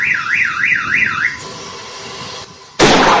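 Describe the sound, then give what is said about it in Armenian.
A warbling warning signal from an SMS-controlled anti-hail station in Odzun village, rising and falling through a few quick cycles, then a quieter pause broken by a sudden loud blast as the station fires. “Հակակարկտային կայանը թեև կառավարվում է նոր տեխնոլոգիաների միջոցով, SMS հաղորդագրություն ուղարկելուց հետո այն սկսում է գործել ու նախազգուշական ազդանշանից հետո կրակում է։”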